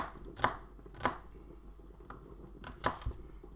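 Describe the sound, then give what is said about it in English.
Knife chopping onions in a kitchen: a few crisp, separate chops at irregular intervals, fairly quiet, with no talk. “Okay. Onions cut.”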